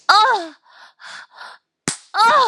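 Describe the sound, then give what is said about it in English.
A single sharp smack of a hand on a buttock lands alone between stretches of breathy moaning, one crisp slap set against the drawn-out voiced sounds around it. “smack my ass”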